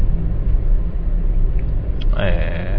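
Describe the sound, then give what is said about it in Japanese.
Steady low road and engine rumble inside a car driving along National Route 8 through Niigata city's Minami ward, with a continuous hum and no talking. “国道8号線新潟県内です。現在新潟市内、新潟市南区を走行中なんですけれども”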